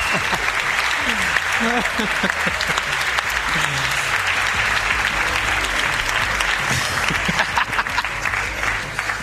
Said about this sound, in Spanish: Egan González, un aplauso.